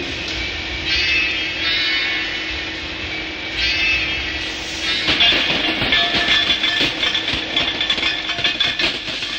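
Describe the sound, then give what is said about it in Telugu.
A puffing steam engine train runs on rails: a steady humming drone at first, then a rapid rhythmic clatter of chuffs over the second half, with no voices. “గుప్పు గుప్పుమని నడిసే engine బండే”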